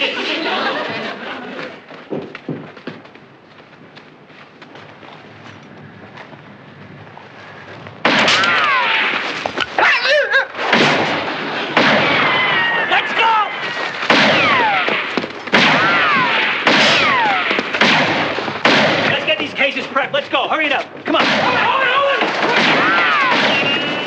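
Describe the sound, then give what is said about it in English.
Gunfire and artillery shooting in a war scene: many sharp blasts and cracks in a dense, irregular barrage that turns louder partway through, mixed with voices and chatter. “My draft board promised me there wouldn't be any shooting.”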